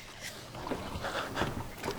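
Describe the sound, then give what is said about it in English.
A boat moves on water, giving a steady wash of rushing, splashing noise with a soft low rumble and no distinct individual events. “I can't move. I'm lying in the bottom of a boat, tied to a board, beneath a tarpaulin.”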